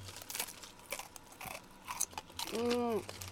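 Someone chews a crunchy, slightly sweet rice cracker, producing a few faint crackling bites. Near the end comes a short hummed vocal sound.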